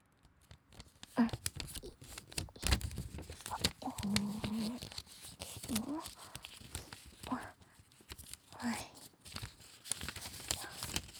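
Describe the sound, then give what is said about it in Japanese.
Paper crinkles and creases as a crane is folded in origami: many soft, irregular rustles and sharp crackles come in uneven bursts, some louder than others. “兄さんはそこで折り紙の音でも聞いててね。”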